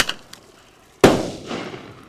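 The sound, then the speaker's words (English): A 15 mm bird banger firecracker, shot from a two-barrel cap gun, explodes midair in one loud, sharp crack with a ringing decay. A few faint clicks come before it. “This firecracker shoots out like 25 feet and explodes in midair.”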